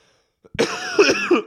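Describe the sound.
A person with a cold, runny nose and respiratory symptoms coughs after a moment of silence, a rough, chesty burst with a few throaty pulses, loud and alone.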